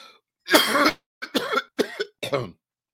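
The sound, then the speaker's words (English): A coughing fit: one long, harsh cough bursts out, followed by three shorter, rough coughs in quick succession, loud and alone with no talk. “But today, coughing fits.”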